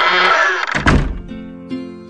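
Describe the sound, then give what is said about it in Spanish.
A tower door closes with a single heavy, low thud midway through, set between sustained musical tones that change after the impact. “en cuanto se cerró la puerta de la torre”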